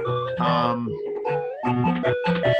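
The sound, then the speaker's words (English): Chiptune video game music from a Game Gear or Master System Sonic the Hedgehog game: bright, buzzy square-wave notes step through a quick melody over steady bass tones, playing continuously at an even loudness. “It's got to be one of the Game Gear or Master System Sonic the Hedgehog games from Sonic.”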